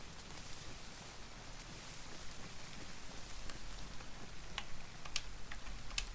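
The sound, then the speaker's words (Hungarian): Rain falling in a video game: a steady, even hiss of rainfall with scattered light ticking drops, no voices. “tényleg, esik eső a Bellára”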